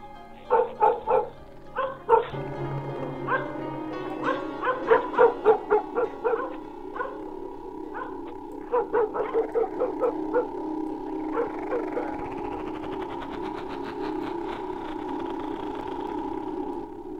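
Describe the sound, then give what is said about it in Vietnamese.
Dogs barking from afar, a scattered chorus of many sharp, irregular barks in uneven bursts, moderately loud and with no talk over them. “Văng vẳng xa xa, tiếng chó bắt đầu sủa râm ran.”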